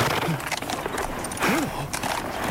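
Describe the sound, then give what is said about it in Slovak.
A stallion stamping and shifting about, its hooves clopping irregularly within a dense, noisy mix, with voices also present. “Žerebec klesol na jedno koleno.”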